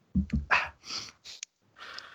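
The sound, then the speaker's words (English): A sharp intake of breath comes among a few short, quiet breathy bursts, noisy and hissing, with brief gaps between them. “I literally heard your intake breath. I pictured you like, oh, let's do this.”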